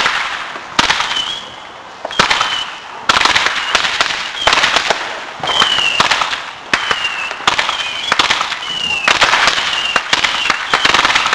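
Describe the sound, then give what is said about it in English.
Fireworks exploding in many sharp, crackling bangs that come in irregular bursts, with short high whistling tones between the blasts. The sound is loud and dense throughout. “How else am I going to see the fireworks?”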